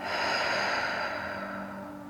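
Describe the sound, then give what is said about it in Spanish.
A relaxed exhale during a guided breathing exercise: one steady, airy breath that lasts about two seconds and fades slightly toward the end, heard alone. “Inhala. Sostén. Inhala un poco más. Y exhala.”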